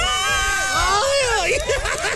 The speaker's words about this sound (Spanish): Échese su grito mexicano. 1, 2, 3.